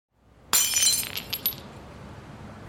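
Window glass shatters as a person jumps through a building window: one sudden loud crash, then a few bright tinkling fragments and a fading hiss of scattering debris.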